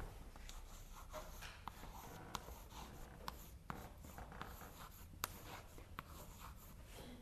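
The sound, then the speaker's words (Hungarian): A word is written out by hand during a lecture: faint, scratchy strokes of writing with a few sharper taps scattered among them, steady and quiet. “Felírom a szót.”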